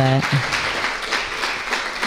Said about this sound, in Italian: Un applauso intanto.